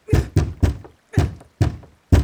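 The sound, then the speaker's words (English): Heavy banging on a gate door: six loud, dull thuds in two groups of three, with a short pause between the groups. “It's impossible that there isn't a gatekeeper behind the door. Why on earth isn't he opening the gate? She bangs one more time,”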